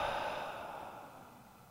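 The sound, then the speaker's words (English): A single deep exhale of breath during a breathing exercise, a soft, faint, breathy rush lasting under two seconds that gradually fades away. “Breathe in and hold it there. Come on now. And exhale.”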